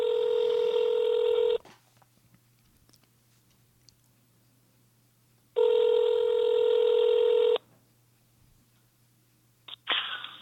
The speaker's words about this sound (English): I'm going to give him a call again right now and just try and find out.